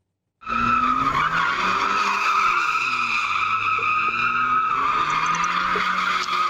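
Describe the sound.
Tyres squeal continuously as cars drift through streets in Turkey. The loud screech starts abruptly after a brief silence, with wavering engine tones beneath it.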